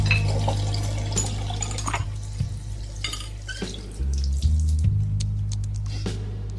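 Water runs at a basin as soap is rinsed from a face, a continuous splashing flow with small irregular splashes over a steady low hum.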